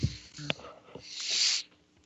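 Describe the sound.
A single sneeze, a breathy, hissing burst that swells and cuts off about two-thirds of the way through, after a few faint short sounds.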